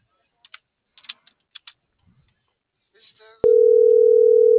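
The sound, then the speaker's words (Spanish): Several light key clicks at uneven intervals as a telephone number is dialed, then a loud, steady single-pitch tone starts abruptly and holds unbroken to the end. “No, le estoy marcando.”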